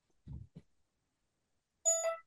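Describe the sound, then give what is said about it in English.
A phone ringing: a short, bright electronic tone with a steady mid pitch and rich harmonics, sounding once as a brief burst after a couple of soft low thumps. “As my phone rings.”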